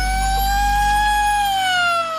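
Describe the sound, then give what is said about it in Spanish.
Siren sound in a song: a loud, steady wailing tone with strong harmonics holds its pitch, then slowly slides lower toward the end. “Luego se pone la sirena, se pone como loco.”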